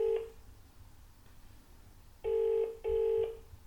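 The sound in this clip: An outgoing phone call rings out on the caller's line: an electronic ringback tone, with the tail of one burst at the start, a pause, then a pair of steady, evenly pitched tone bursts close together, with no voices.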